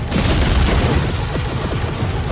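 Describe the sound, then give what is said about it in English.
Heavy laser cannon fire tears a protective pillar to shreds in a sci-fi battle: a loud, dense, continuous roar of booming blasts and crackling bursts with no break. “The cannon unloads on them. New plan! The heavy laser fire begins ripping their protective pillar to shreds.”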